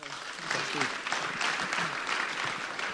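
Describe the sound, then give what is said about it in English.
A church audience applauds to welcome a speaker at a morning service. The clapping is a steady, moderately loud patter throughout, and a voice is briefly audible over it early on. “So let's just give a hand and welcome him.”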